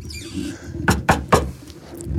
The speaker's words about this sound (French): Mais qu'est-ce qui se passe? Qui c'est qui frappe à la porte? Un petit toc, toc, toc.